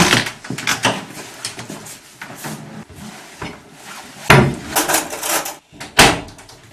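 Rummaging through a kitchen drawer for cutlery such as a spoon, teaspoon or knife: many rattling clinks and knocks in an uneven rhythm, with a few louder clattering bangs toward the end and no talk.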